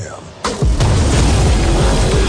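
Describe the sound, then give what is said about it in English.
A tank firing its cannon: one sudden, heavy boom, then a loud, continuous roaring rumble that stays strong to the end. “Guys, they got a tank.”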